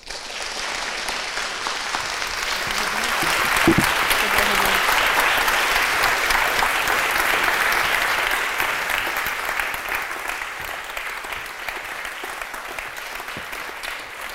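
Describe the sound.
An audience applauds to welcome speakers at an evening talk. The dense, sustained clapping swells around four seconds, holds steady, then slowly thins and tapers.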